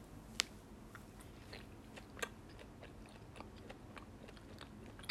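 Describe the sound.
Biting and chewing a round, flat, coin-sized cola-flavored gummy candy: faint, soft, moist chewing with a few sharper crunchy clicks in an irregular rhythm, and no talking.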